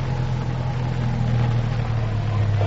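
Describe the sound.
A car engine as the car pulls in to park: a steady, low rumbling hum with a droning tone that runs unbroken throughout, with no voices.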